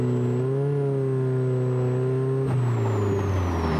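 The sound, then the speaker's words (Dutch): A 154-horsepower Ford four-cylinder engine in a classic Plus 4 sports car with a wooden body drones through an Aero Racing sports exhaust. It holds a loud, steady low tone with a thin high whine, and the tone shifts slightly midway. “Aero Racing sportuitlaat. Ja, het motorgeluid die krijgt wel een hele mooie nadruk hier. En dan van die lekkere, lekkere plofjes als je het gas loslaat.”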